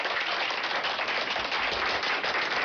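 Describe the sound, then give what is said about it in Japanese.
Audience applause at an event at a Tottori roadside rest stop: dense, steady clapping from many hands that holds at an even level for the whole stretch, with no voices standing out. “皆さん大きな拍手”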